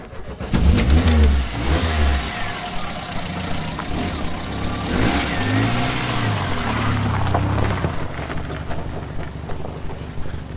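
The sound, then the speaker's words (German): A car engine revs and pulls away as the car drives off across a frozen natural ice lake. The engine note rises and surges through several loud, sustained accelerations with no pauses. “So, gut, steigen wir wieder ein, dann fahren wir wieder los.”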